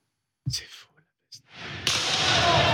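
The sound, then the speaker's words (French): Warning shots firing tear gas canisters during street unrest in Marseille: two dull, muffled thumps with short gaps between them, then a loud, dense, steady rushing noise that swells and holds to the end. “il y a des tirs de sommation avec des charges de gaz lacrymogène”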